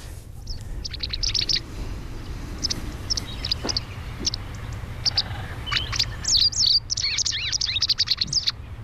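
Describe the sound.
Bright chirping song of a wagtail, a cheerful bird originally of shores that still nests in waterside vegetation: many short, high chirps in quick bursts, busier toward the end, over a steady low hum.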